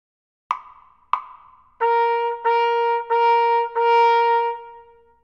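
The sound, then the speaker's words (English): Two sharp count-off clicks are followed by four even quarter notes in 2/4 time, all on the same pitch. The tones are clear and separated by tiny breaks, and the last one fades out. “Quarter notes sound like this.”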